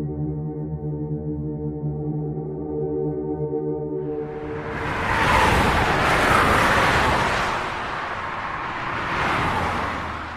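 Broad rushing road noise from a luxury seven-seat car swells up after a steady tonal drone, peaking twice over several seconds with no voices present.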